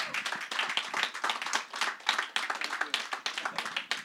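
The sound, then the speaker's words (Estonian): An audience applauds to welcome a speaker to the stage: many distinct, sharp claps in an uneven rhythm, moderately quiet, rising and dipping in small waves throughout. “Tervitame teda soori aplausi. Let's give him a warm welcome.”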